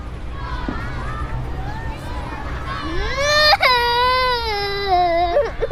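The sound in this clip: A child cries in a loud, high wail that swells and holds, breaking off near the end, after a few seconds of quieter voices talking.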